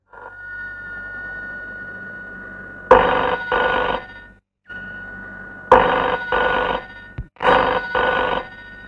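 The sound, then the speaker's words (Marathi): Telephone bell ringing in repeated double bursts, three pairs of loud, bright rings separated by short pauses over a low steady hum. “निश्चित गाशाचाच phone असणार, तो तिथे वाट पाहत असणार.”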